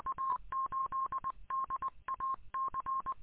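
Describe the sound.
Telephone dialing tones: many quick, faint beeping key tones in short rhythmic clusters, each cluster separated by brief gaps.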